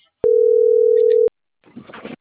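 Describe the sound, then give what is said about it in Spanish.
Ringing tone of an outgoing telephone call: one steady electronic tone lasting about a second, loud and alone, starting and stopping abruptly, followed by a short gap and some faint, muffled noise. “Ya le estoy llamando a Fabián.”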